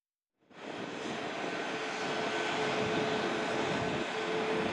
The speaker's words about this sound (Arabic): وكان مراسلنا قد رصد انطلاق الطائرة من مطار المدينة.